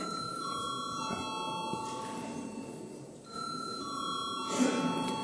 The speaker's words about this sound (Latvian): Lūdzu, zvanu.